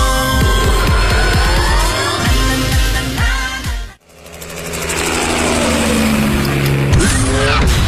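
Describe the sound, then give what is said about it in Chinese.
A sports car engine roars: a V8 with all-wheel drive and an all-aluminium petrol engine. Loud revving sweeps up and down in pitch, dips sharply for a moment, then climbs again into a sustained, rising drone. “车身线条大胆前卫，配备 V 八引擎，全时四驱系统，全铝汽油发动机，最高时速超过每小时300公里。”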